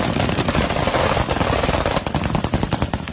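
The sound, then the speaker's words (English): Rapid machine-gun fire shooting tracer rounds into the night sky at a drone, a loud, dense stream of sharp reports in continuous bursts with no voices. “You definitely see the bullets. Dude, I love seeing bullets at night. Those are just tracers.”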